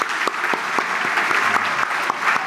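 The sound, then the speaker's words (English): Audience applause for a teacher being honored, brisk and continuous clapping from many people with some sharper individual claps poking through, steady and fairly loud. “A round of applause for Mrs.”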